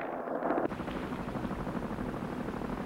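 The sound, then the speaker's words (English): Helicopter rotors from a fleet approaching an offshore platform across the water: a dense, pulsing low-mid thudding that holds steady and fairly loud, with a brief, different burst of noise just at the start. “The fleet of helicopters approaches the platform across the water.”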